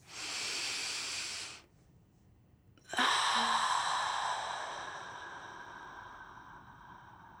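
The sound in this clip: A deep breath taken during a breathing exercise: a steady breathy inhale, a short held pause, then one long hissing exhale that fades slowly.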